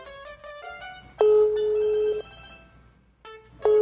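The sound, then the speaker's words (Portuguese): An outgoing telephone call rings: a rapid run of short electronic beeps, then a steady ringback tone lasting about a second. After a pause the tone starts again. “Tá, tá chamando.”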